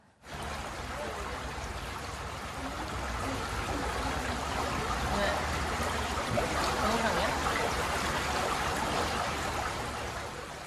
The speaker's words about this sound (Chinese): 太远了，这个水声太大了，水声太大了，就是那个听着那个水声